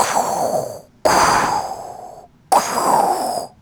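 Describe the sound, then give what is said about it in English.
Mechanical respirator breathing of an iconic masked film villain: three loud, hissing breaths, each starting abruptly and sustained for about a second before cutting off, separated by brief silences, with no talk. “Darth Vader's breathing is very iconic. It's probably one of the most iconic sounds.”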